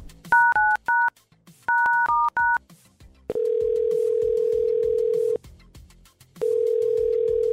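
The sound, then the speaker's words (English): A telephone number dialed on a touch-tone keypad: two quick clusters of bright beeps, then a loud, steady ringback tone that sounds twice with a short silence between. “All right, let's dial it right here.”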